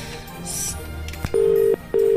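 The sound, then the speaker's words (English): A telephone number is dialed on a keypad: a click, then two steady, even touch-tone beeps separated by a short gap, the second cut off at the end. “I don't know what it's about, so I'm going to dial it now”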